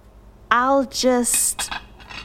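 Dishes and cutlery are loaded into a dishwasher with a short burst of clinking and rattling, briefly following a voiced sound.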